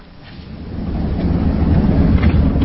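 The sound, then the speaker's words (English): Low, rumbling drone of a convoy of United Nations armoured vehicles driving outside Mogadishu, Somalia, the engine and road noise swelling gradually louder and staying heavy throughout. “And just to describe how we're travelling, it's in a convoy of United Nations armoured vehicles”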